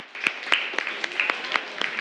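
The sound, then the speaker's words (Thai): Children clap for a classmate in a classroom. The clapping is steady and fairly even, with sharp claps standing out at a regular beat over a softer bed of scattered hand noise. “โอเคปรบมือให้เพื่อนหน่อยครับ”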